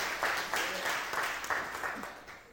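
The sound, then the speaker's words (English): An audience applauds in a church sanctuary. The clapping is steady and dense, with voices mixed in. “You can clap.”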